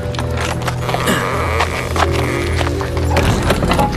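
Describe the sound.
Hooves clop steadily and loudly as a horse-drawn carriage pulls up, the rhythmic hoof strikes continuing throughout over a low rumbling bed of noise.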